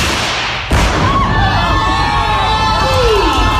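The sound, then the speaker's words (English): A single sharp Tannerite blast blows up a wedding dress, followed at once by a sustained crowd of family and friends cheering and shouting. “To blow her wedding dress into smithereens with family, friends there all to watch.”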